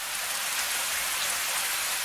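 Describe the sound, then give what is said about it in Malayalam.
Steady rain falling on a surface, a dense, even hiss of countless drops that stays constant in loudness from start to finish, with no voices or other sounds. “ഉണ്ണിമോള് വേഗം മുറ്റത്തിറങ്ങി രണ്ട് കൈയും നീട്ടി മഴയെ തട്ടിക്കളിച്ചു.”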